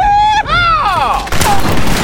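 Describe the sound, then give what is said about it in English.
Gunfire in a dramatized outlaw bank raid: a loud sharp report followed by whining ricochets that fall in pitch, then a rough burst of crackling noise. “All right, boys, the bank's ours! Shorty, Red, get working on the safe. The rest start shooting up the place.”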